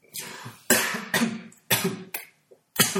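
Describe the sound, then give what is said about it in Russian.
A man coughs in a series of several harsh, dry bursts with short pauses between them, including one small cough near the end. “прямо даже закашлялся”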